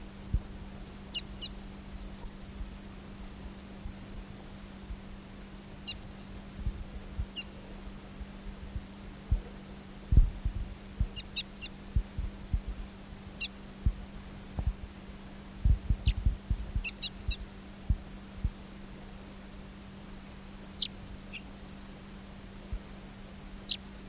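Brief, high bird notes sing out in scattered bursts over a steady low hum, with occasional soft thumps in between.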